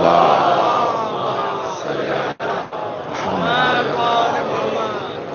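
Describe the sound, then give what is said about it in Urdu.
A crowd at a religious gathering loudly chants salawat in unison. The massed voices continue throughout, with a brief break partway through. “کی سربلندی کے لیے بقا کے لیے باواں سے بلند نعرہ صلوات”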